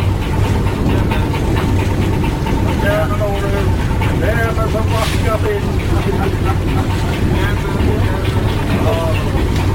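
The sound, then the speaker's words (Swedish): Loud, steady chugging of the boat Arnafjord's engine as it comes in to dock at Atløy. A continuous low rumbling drone holds throughout, with some wavering tonal hum in the middle. “Och här kommer Arnafjord tuffande. Och ska pröva att lägga in till Atløy.”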